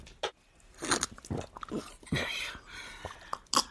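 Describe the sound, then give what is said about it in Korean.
A young man hungrily eats rice, with moist chewing and biting noises in quick, uneven bursts, fairly faint and close, and several brief louder smacks. “아이고, 저 천천히 먹지. 두 사람 몫의 밥을 다 먹고 난후 비로소 청년의 눈길이 노인에게 닿았다.”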